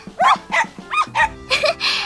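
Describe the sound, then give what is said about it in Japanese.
A dog barks in a quick run of about six short, sharp barks, each a separate burst over a faint steady background tone. “ワンちゃん、応援してくれるの？”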